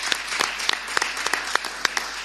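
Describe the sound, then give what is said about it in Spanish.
Audience applause at a carnival presentation event: sustained, dense clapping from many hands, lively and even throughout. “Otro aplauso para ella.”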